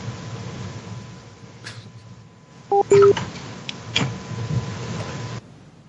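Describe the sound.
Telephone keypad tones sound as someone dials to call a person back: a few short, bright two-tone beeps in quick succession over a low steady hum, with faint clicks around them.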